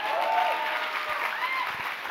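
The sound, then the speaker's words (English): An audience claps during a church sermon: steady, dense applause that stays loud and even throughout, with no talk over it. “Love the energy. It's never a bad thing to clap for God's awesomeness, I promise you.”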